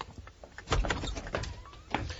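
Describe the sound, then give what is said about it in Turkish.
A door being opened at home for visitors: a cluster of clicks, knocks and rattling of the latch and frame, moderately loud and uneven, with no voices. “Şimdi gidip kapıyı açabilirim.”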